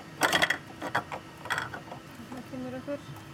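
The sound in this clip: A coin counting machine clicks and rattles as it is opened to free a bent ten-krona coin stuck inside. A few short metallic clattering bursts come first, then quieter squeaky mechanical tones.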